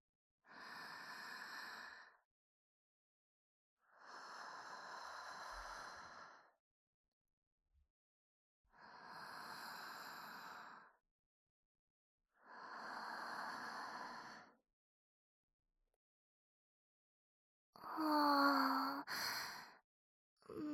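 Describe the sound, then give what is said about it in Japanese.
Deep breathing, slow and audible: five long breaths with quiet gaps between them, each a soft airy rush, and the last one slightly rougher and louder. “深呼吸ですか。なるほど。ちょっとやってみますね。”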